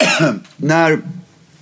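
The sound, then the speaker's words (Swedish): A person coughs twice in a quick pair. The coughs are loud, harsh and voiced, with a short gap between them, and a faint breathy tail follows. “Förlåt, jag ska hosta.”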